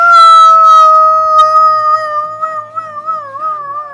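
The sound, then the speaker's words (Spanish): A coyote howls at dawn near a small western village. The howl is loud and sustained with a high, steady pitch, then turns wavering and quavering toward the end, with no other sounds alongside it. “En el pequeño poblado de Yellowtown, un coro de coyotes emite aullidos desesperados.”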